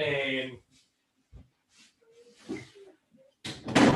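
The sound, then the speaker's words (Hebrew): A door is closed with a short, firm thud, set between stretches of voices talking. “רגע, נסגור את הדלת.”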